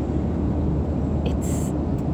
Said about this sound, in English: So right now we're flying back on a plane